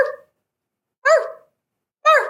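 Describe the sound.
A human voice imitates a dog barking at a window. It gives three loud, separate woofs about a second apart, each short and throaty with a quickly fading tail.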